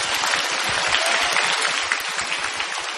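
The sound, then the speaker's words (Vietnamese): Sustained applause from an audience at a Buddhist meditation music evening: a dense, steady patter of many hands clapping throughout, with no pauses. “Mọi người vẫn vỗ tay kìa này.”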